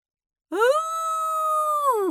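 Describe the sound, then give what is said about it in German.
A wolf howling in one loud, sustained tonal call that rises at the start, holds a steady pitch, then slides downward at the end, heard alone after a moment of silence. “Er warf den Kopf in den Nacken und heulte.”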